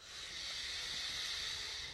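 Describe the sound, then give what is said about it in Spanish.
Breathing sound, a faint, smooth, airy hiss of breath that holds steady for about two seconds with no voice. “Respiro y exhalo.”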